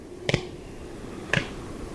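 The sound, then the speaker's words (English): Wing claps of a male long-eared owl in zigzag spring display flight: two sharp, crisp double claps, well apart, over faint background hiss. “During the spring mating season, males display to females in zigzag flight while clapping their wings together.”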